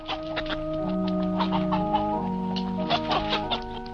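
Roosters held in a man's hands cluck and squawk in a run of short, irregular calls over a steady tonal hum.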